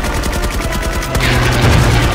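Rapid gunfire in a video game: a long stream of loud shots in quick, regular succession, with a low steady hum rising beneath it partway through.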